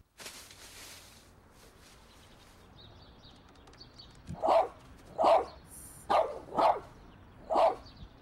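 Five sharp dog barks ring out in quick, slightly uneven succession, loud against a quiet background that follows a few seconds of near silence.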